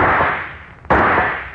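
Rifle shot in a radio drama, a single sharp, loud crack with a quickly fading tail, coming right after a burst of noise that slowly dies away.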